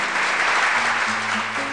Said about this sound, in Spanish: Aplausos para Ulises López.